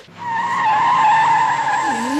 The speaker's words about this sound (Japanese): そのまま2台がぴったり並走しながらブランデンブルク門をくぐり抜けて、そのままこっちに加速してくる。